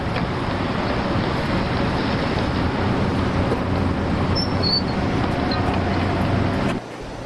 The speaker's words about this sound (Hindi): आइए सवार हो जाइए, चलिए गाड़ी चलने वाली, आइए जल्दी सवार हो जाइए।